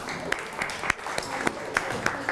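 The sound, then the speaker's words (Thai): Students in a classroom applaud a classmate with a few sharp claps standing out from a dense, steady patter, with voices mixed in. “ทัศนธาตุอ่ะปรบมือให้เพื่อนหน่อยครับ”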